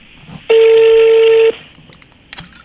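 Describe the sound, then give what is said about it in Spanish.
A telephone number being dialed: a single loud, steady electronic tone lasting about a second, followed by a brief faint click against quiet background. “en este momento vamos a marcar para ver si don Miguel Ángel Ballinas”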